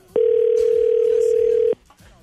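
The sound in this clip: One telephone ring tone sounds on the line during a call to a radio station's contest line. It is a single steady, even tone, clearly louder than what surrounds it, lasting about one and a half seconds, then cutting off into quiet.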